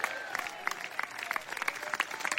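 Congregation applause during a church service: many hands clapping in a dense, steady patter with sharp bursts throughout, moderately loud and without a break.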